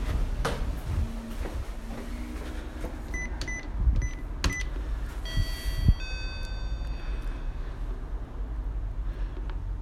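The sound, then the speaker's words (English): Electronic keypad beeps sound as a telephone number is dialed. A few short, high bleeps are followed by several longer held tones over a faint background hum. “Dialing the numbers.”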